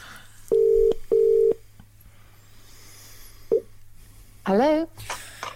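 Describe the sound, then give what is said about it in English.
Telephone ringing tone on an outgoing call: two steady, even beeps in a quick double burst, then a pause with faint line noise and a soft click before a voice answers. “I'm getting dialing of a number. That's what I'm getting.”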